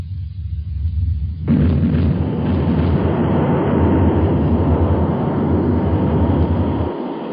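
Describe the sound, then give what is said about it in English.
A heavy, continuous roar from a bomber aircraft on its final bombing run over its target, Hiroshima, with bombs exploding. The loud, dense rumble swells suddenly early on, holds steady and thick, then eases slightly near the end. “We are now ready for the final bomb run. It is 8:50. Not long now. There will be a short intermission now while we bomb our target.”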